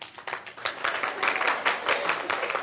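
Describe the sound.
Audience clapping during a church talk: uneven, moderately loud bursts of hand claps that swell and ebb across a couple of seconds, with no talking over them.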